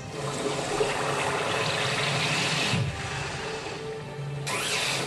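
Gushing water from a flood splash attack sound effect in a video game, a loud, continuous rushing wash that shifts character midway and surges again near the end.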